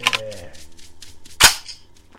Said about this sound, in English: So I went ahead and fired at that one.